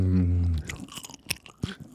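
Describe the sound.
Someone chews pork tenderloin close to the mic, with soft wet crunches and smacks in an irregular rhythm after a brief voice at the start.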